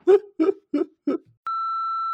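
Voicemail beep: a steady, pure electronic tone that holds unchanged to the end. It follows four short voiced bursts that sound like laughter.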